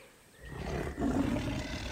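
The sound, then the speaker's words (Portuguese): A tiger roars from a TV documentary, a low, rough growl that swells in after a quiet opening and stays loud, with a brief dip midway. “o sistema límbico vai deixar de avisar o nosso corpo do perigo só porque o rugido do tigre pode ter vindo da TV.”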